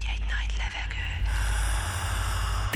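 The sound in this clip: A deep, drawn-in breath, a gasping inhale stretched over a few seconds, with a steady low rumble beneath it throughout.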